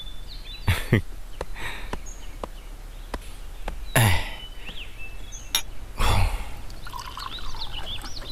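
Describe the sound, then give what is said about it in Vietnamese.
Coffee being made and poured: sharp clinks and knocks of cups and utensils, spaced a few seconds apart, with soft pouring and trickling between them and no voices. “Anh uống cà phê không? Để em vô pha cho anh một ly nghe.”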